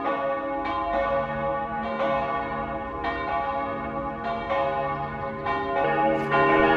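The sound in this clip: Tower bells high on a tall tower in Stockholm ring out a pop song melody as many resonant struck notes, each with a long overlapping ring, loud and clear with no voices.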